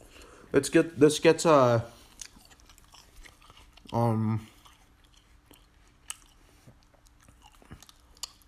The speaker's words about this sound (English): besides the how hard it is to bite into this, it still tastes delicious.